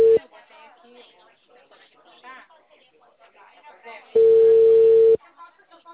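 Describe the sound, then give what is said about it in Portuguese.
A phone call's ringback tone: a steady, clear one-second tone sounds near the end, with a brief fragment at the very start and people talking in between. “Tá chamando. Tá chamando.”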